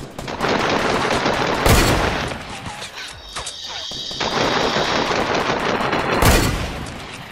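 Two loud, sharp bolt-action rifle shots in a video game ring out several seconds apart over dense, continuous game noise.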